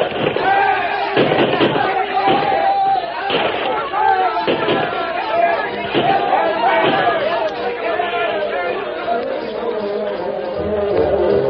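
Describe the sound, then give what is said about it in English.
A volley of rifle gunfire in a Lone Ranger radio drama battle scene, as pioneers shoot at a charging horde. Many sharp cracks and thuds ring out in an irregular series over continuous crowd chatter and voices. “The first volley from the white men sent a dozen spilling from the saddles, but the rest charged on.”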